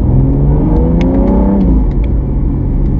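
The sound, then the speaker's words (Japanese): Engine roar of an X4 M accelerating hard in manual mode into second gear, heard from inside the cabin: a loud, steady drone whose pitch climbs, then drops briefly at the gear change before pulling on. “ちょっと中だと分かりづらいけど、外にこうギアチェンジしてボンと一瞬聞こえる。”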